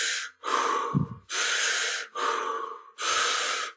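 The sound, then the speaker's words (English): Connected breathing, with continual breaths through the nose or mouth: loud, airy rushes alternate in and out with no pause at a steady pace, and one breath carries a brief low snort. “This is transformational breath or rebirthing. These are continual breaths in and out through the nose or mouth without any pause. So it's more like a...”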